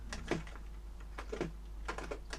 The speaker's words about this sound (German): Okay, warte ganz kurz, ich schreibe den Satz nochmal richtig auf.